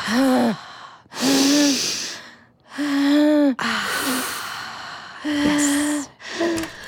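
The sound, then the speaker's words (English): Heavy, deep breaths in and out from a distressed person being coaxed to breathe: a series of loud, strained, partly voiced gasps, each followed by a short pause. “Take a breath. Come on, let's breathe. Take a breath.”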